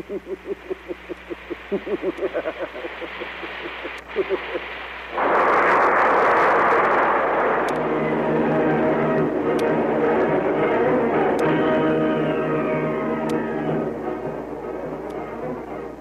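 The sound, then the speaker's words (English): Radio drama effect of a rocket ship crashing onto a planet: a fast, regular throbbing engine pulse gives way after about five seconds to a loud roaring crash that stays heavy and then settles into a long rumbling wash of wreckage noise. “Rocket ship hits the planet. Dr. Zarkov and Dale are thrown from the rocket ship unconscious.”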